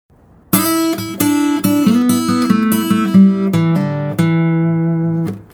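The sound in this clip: A guitar plays a lead-based blues lick in the key of E, suited to a 12-bar blues: a quick run of plucked single notes and short double-stops, ending on a sustained note that rings and fades, with no talk.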